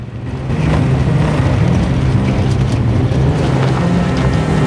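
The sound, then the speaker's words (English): A red pickup truck drives along a sun-drenched road, its engine giving a steady low rumble mixed with continuous road and wind noise that swells in just after the start and then holds even throughout. “The man with the red and white headdress stares at the sun-drenched road ahead as he drives the red pickup.”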